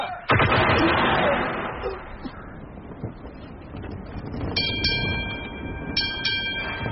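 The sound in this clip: Guns fire on command in a sudden loud blast, followed by a few seconds of heavy rumbling noise. Thinner, higher tones rise over the noise toward the end.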